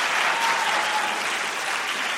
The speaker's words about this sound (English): He's wisely letting the applause die down before he speaks.